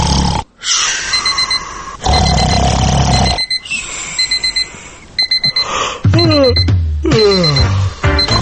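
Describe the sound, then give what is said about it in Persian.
An alarm clock rings with loud, repeated electronic beeping in short rapid bursts, broken by brief pauses and mixed with other clattering sounds. “آیا راحت از خواب بیدار نمی شوید؟ آیا صدای ساعت شما را بیدار نمی کند؟ آیا صبحها همیشه دیر می کنید؟ آیا از زنگ گذاشتن ساعت خسته شدید؟”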